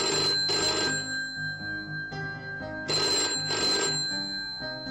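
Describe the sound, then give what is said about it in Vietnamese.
A landline desk telephone rings in two pairs of bright, rapid bell bursts separated by a pause of about two seconds. A steady tonal hum runs beneath the rings. “điện thoại bàn bỗng vang lên.”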